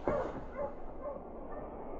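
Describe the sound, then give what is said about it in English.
A malamute sled dog barks as a dog team is urged forward with a sled, giving a few sharp, fairly loud barks in quick succession over a steady background hiss. “Line up your dog. Up, boy. Up. Mush, you Malamute.”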